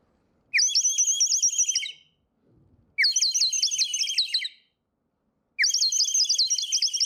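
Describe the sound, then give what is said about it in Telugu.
Warbling, bird-like trills from a clay bird whistle filled with water, sounded in three long, high-pitched bursts separated by short pauses. The bursts are loud and stand alone, with no talk. “Bowl full of water, బర్డ్ని నేను వాటర్లో పెడుతున్నా. నా same bird, same clay with water, see what happens.”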